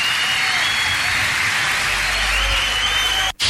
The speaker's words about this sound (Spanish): Un fuerte aplauso para Gustavo Santaolalla, que tiene mucho que ver con esto.